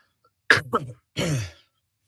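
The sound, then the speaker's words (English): Someone coughs to clear the throat: two short, rough bursts followed by a longer raspy hack, heard alone without talk. “Excuse me, I'm having a hard time getting that out of my throat.”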